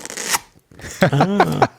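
Packaging rustles as a mug is unpacked: a short, crisp, crinkly burst of noise, then a pause before further sound.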